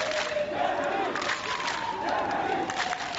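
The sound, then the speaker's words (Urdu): Migrants at Budapest railway station, stopped from boarding trains, chant together in a loud, continuous crowd with overlapping shouted voices. “سفر سے روکے جانے پر یہ افراد اپنے ٹکٹ لہراتے رہے اور جرمنی جرمنی کے نعرے لگاتے رہے۔”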